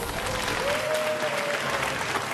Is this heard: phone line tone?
no